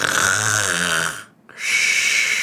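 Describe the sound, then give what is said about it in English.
A person imitates loud snoring. A long, rasping snore with a deep buzzing tone breaks off for a moment, then gives way to a breathy, hissing exhale. “and he is snoring so loud.”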